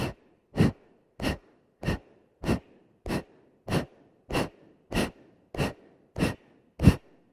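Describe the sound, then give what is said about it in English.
Twelve sharp, forceful exhales from people doing a group breathing exercise, evenly paced in a quick, steady rhythm, each a short breathy puff with near silence between them. “Exhale, exhale, exhale, exhale.”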